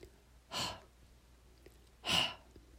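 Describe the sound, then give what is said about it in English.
Breathing with the breath pushed through the back of the throat, as when fogging a mirror: two airy, open-mouthed exhales separated by a pause, fairly soft and alone. “When you do that, you can feel the breath in the back of the throat. Try it.”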